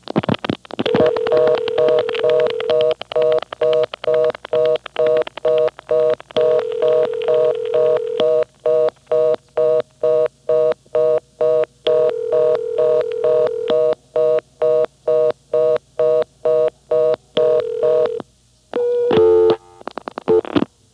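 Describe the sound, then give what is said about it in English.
Telephone keypad tones during dialing: four longer dual-pitch beeps sound among a rapid, regular train of short clicking pulses, all fairly loud and alone. “Okay, now dial 5, 6. Four more digits.”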